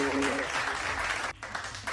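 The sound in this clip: An audience applauds a guest with brisk, dense clapping while a voice talks over it. The sound drops out briefly midway, then returns.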